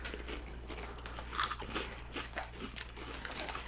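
Crunching of a Wise barbecue potato chip: a sharp bite is followed by many quick, brittle crunches as it is chewed, all fairly faint and close with no talking.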